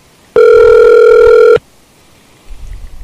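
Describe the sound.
A telephone call goes unanswered as a single steady electronic ring tone sounds for just over a second. The tone has a clear, buzzy pitch with bright overtones and is followed by quiet with faint low rumbling.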